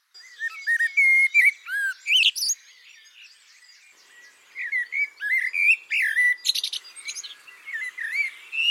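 A blackbird sings its song motifs in bright, fluting whistles and quick chirps. Two bursts of varied phrases are split by a short pause, with no other sounds around them.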